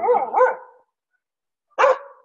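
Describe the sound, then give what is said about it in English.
A dog barks three times: two quick barks close together, a short silence, then one more sharp bark. “Dogs. Yep. They hear a dog in the neighborhood, they start barking.”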